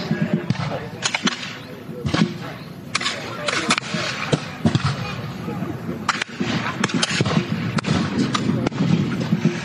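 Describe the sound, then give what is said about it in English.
Gunfire erupts in a video game battle as American militia fire from houses at British troops. Sharp cracks and thuds come in a dense, irregular barrage throughout, with a voice at times. “Oh no, there's American militia positioned in the houses as well. They're firing back. There's going to be a lot of bullet holes in these houses tonight,”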